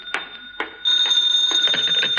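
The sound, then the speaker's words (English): Telephone bell ringing in a continuous, shrill trill that starts after a couple of sharp thumps and carries on steadily to the end, with no voices. “Now the phone.”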